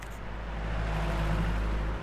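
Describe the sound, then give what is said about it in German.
Heavy rush-hour car traffic in downtown Nicosia, Cyprus, makes a steady, dense low rumble. The roar holds at an even level throughout, with no single vehicle standing out. “Rushhour in der zyprischen Hauptstadt Nikosia. Eine wahre Blechlawine wälzt sich durch die Innenstadt.”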